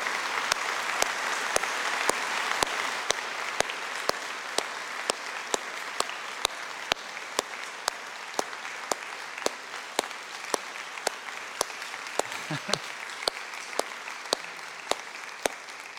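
A church audience gives a standing ovation, with sustained applause filling the space throughout. A regular beat of sharp, evenly spaced claps runs through the steady clapping.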